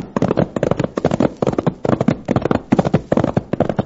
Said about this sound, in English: Come on, Whitey, prod up that pony.